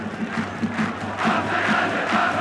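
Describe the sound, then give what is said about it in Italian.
Roar of about 2000 Parma away supporters at the Castellani stadium during a football match against Empoli, a broad crowd noise with a pulsing low undertone that swells noticeably louder after the first second and stays up. “Adesso il Parma ci crede, accolto dal boato dei 2000 tifosi crociati al Castellani.”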